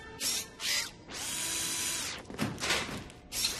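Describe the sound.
An electric screwdriver whirs during a repair, with two short buzzing bursts, then a sustained whine of about a second, followed by uneven rattling spurts and a final short burst.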